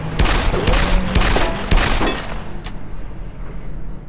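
Pistol shots fired at a vehicle in an action thriller film scene: many sharp, loud cracks in quick succession over a low rumble, easing off into a fading tail.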